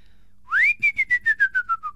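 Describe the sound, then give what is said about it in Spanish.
A person whistles an imitation of a man's courting whistle, the call he gave when approaching a house; one long rising note is followed by eight short, clear, evenly spaced notes that slowly drop in pitch. “era el silbido que tenía cuando se acercaba a casa, a rondarla, luego después cuando se acercaba a casa después del trabajo, voy a ver si le puedo imitar.”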